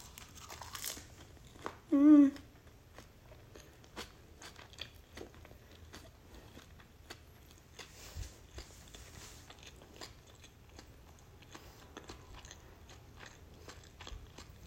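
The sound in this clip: Biting and chewing rice wrapped in nori seaweed: many faint, crisp crunching clicks in a steady irregular rhythm, alone and very quiet throughout.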